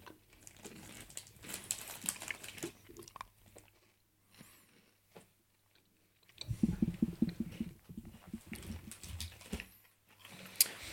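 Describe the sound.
Chewing and biting on matcha green tea chocolate: soft, irregular crunching and moist mouth sounds in scattered bursts, quieter midway and busier again toward the end.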